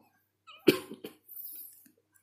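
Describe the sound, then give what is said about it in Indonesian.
A cough: a few harsh, throaty bursts close together, the first the sharpest, trailing into a breathy rasp, with no talking. “Maaf batuk.”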